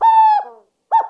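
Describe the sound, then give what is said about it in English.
Burrowing owl calling twice: a long, clear hoot with bright harmonics, then a pause and a much shorter second call. “And this excitable fellow is a burrowing owl.”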